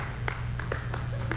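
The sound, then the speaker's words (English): A sparse smattering of audience applause at a comedy show: a few scattered, isolated hand claps ring out over a steady low hum and background noise. “That's what we call a smattering of applause, all right?”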